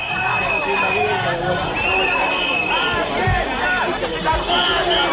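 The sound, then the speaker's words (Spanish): A crowd gathers at a rally in Ceuta on the city's autonomy day in support of its people, with many overlapping voices talking and calling out in a steady murmur. “Este es el sonido de esta hora en Ceuta, 2 de septiembre, Día de la Ciudad Autónoma, día en el que la Federación de Municipios y Provincias convoca concentraciones en apoyo al pueblo ceutí.”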